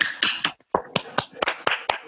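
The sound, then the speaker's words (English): Participants on an online call unmute and clap, giving scattered, irregular claps and a few finger snaps from a handful of people, with one short silent gap early on. “Should we all just take ourselves off mute and give a round of applause to Christabel, please?”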